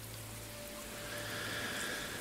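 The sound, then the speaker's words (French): Steady rain falling outside while the listener stays cozy indoors, a continuous, even, faint hiss with no clear separate drops. “Oui, la pluie tombe, mais peu importe.”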